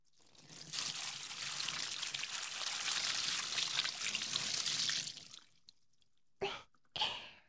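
Water is poured over someone for washing: a continuous, hissing rush that lasts about four seconds and then tapers off. Two brief, splashy bursts follow, with no talking.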